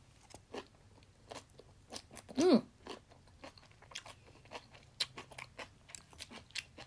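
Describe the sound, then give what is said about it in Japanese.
Crisp crunching from someone chewing stir-fried vegetables: many faint, irregular bites and crackles follow one another with no talking. “野菜炒めから食べていこうかな。”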